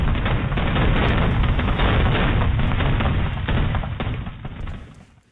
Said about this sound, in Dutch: In het Groningse Midwolda ontplofte illegaal vuurwerk.